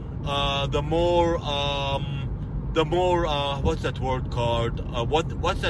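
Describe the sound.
Steady road and engine rumble from a Toyota Yaris driving on a highway, a constant low drone with someone talking over it throughout.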